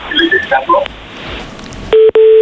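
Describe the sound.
A steady, loud mid-pitched telephone line tone sounds after a caller hangs up during a phone-in, broken once by a brief gap. Before it come a jumble of faint short electronic tones.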